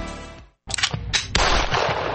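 Gunshots ring out at a shooting range in Louisville: a few loud, sharp cracks in quick succession, overlapping with a sustained reverberant roar between them.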